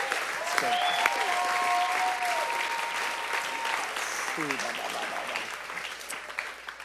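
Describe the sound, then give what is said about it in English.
Audience applause at a church healing service: steady, dense clapping from a crowd that carries on throughout, with a voice heard briefly over it. “So hand back there, hand over there. Come on. Yay, God. Let's give God another hand.”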